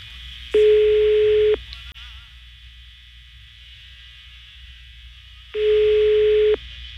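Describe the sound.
Telephone ringback tones on an unanswered call: two long, steady, mid-pitched tones, each about a second, separated by a few seconds of near silence.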